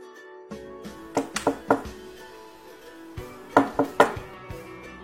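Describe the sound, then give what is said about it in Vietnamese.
Knocking on a door: two separate bursts of a few sharp, hard raps over a quiet background hiss, the second burst coming after a pause. “Trung Quy kiến thức rộng rãi, lập tức bảo cháu trai gõ cửa.”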